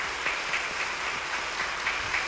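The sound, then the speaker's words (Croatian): Prolonged applause from standing members of the Yugoslav federal parliament at the proclamation of the constitution, dense and steady clapping throughout with no voices. “Svi poslanici su ponovo ustali i dugotrajnim aplauzom odobravaju”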